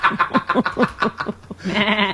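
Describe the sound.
Sheep bleating in a wavering, rapidly pulsing call that is loud and alone, ending in a steadier, higher sustained bleat.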